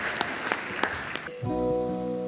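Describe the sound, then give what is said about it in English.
An audience claps in praise at the close of a church sermon. A few sharp claps rise over a murmuring crowd, then give way to sustained tonal music. “Let's give Jesus a clap of praise.”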